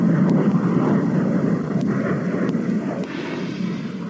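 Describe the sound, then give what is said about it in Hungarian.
Engine roar from the world's fastest aircraft at 26 km altitude as the pilot pushes the throttle: a heavy, continuous low rumble with faint clicks above it, easing slightly toward the end. “Brian Schull, az amerikai légierő veterán pilótája többet nyomja a gázt”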